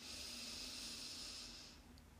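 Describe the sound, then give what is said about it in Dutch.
A long breath is drawn in through the nose during a relaxation exercise, a steady airy hiss that holds for nearly two seconds and then stops, with no talk. “En dan in door je neus, even je adem vasthouden. En dan uit door je mond. Dus in door je neus.”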